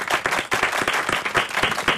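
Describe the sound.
Lively applause from many hands, a dense and irregular patter of claps that stays strong and steady for the whole clip, with no clear voices over it.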